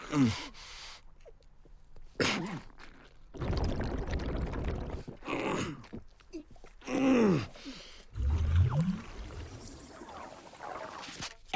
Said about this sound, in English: A cloudy amber liquid slowly rises through a light blue tube.